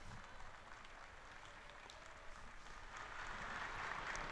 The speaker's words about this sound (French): Et les pèlerins de langue espagnole sont nombreux, ils applaudissent.